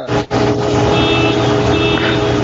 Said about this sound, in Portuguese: É, carro na rua dando alarme, cara.